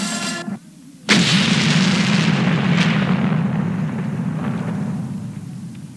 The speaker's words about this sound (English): What was that? It sounded like something exploded.